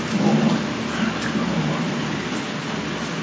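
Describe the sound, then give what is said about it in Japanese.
Raindrops falling in a dense, steady patter that forms a continuous hiss, slightly stronger at the start and then holding an even level without pause. “これが雨だれの音”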